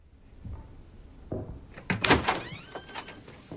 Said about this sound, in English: His mother opens the door to look in.